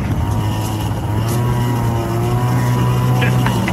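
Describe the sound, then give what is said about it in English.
A moped engine drones loudly and steadily as it struggles on loose gravel while the rider works the throttle, giving a continuous buzzing hum with layered tones and no clear breaks. “this loose gravel's a motherfucker for a moped one-handed. Yeah. This is taking me. I got to go to the airport. I got to go down here. You can hear me kind of get stuck here. I had to kind of gas it up.”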